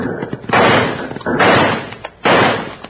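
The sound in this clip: Six-gun revolvers fire three loud gunshots in a radio western drama. Each is a sharp blast with a long, ringing tail, and the shots are spaced fairly evenly apart.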